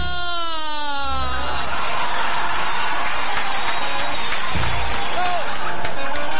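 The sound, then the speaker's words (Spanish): Family members clap and cheer for a girl on her birthday. A high, wavering voice opens, then steady clapping follows, mixed with excited shouting voices. “El aplauso para la cumpleañera.”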